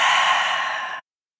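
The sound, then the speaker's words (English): A single deep exhale after breathing in through the nose during a breathing exercise: one long, airy sigh lasting about a second, fading slightly before cutting to silence. “In through your nose. Fill your belly. Exhale.”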